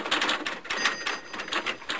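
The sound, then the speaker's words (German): A fax machine printing gives off a steady mechanical chatter of quick, repeated clicking pulses with a bright, rattling edge, continuing at an even pace throughout. “Leider ist an dieser Stelle das Fax abgebrochen.”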